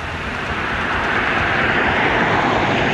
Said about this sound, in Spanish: Ahí viene un vehículo, ¿no? A ver si viene exceso de velocidad. Viene muy fuerte, mira, muy fuerte bajando.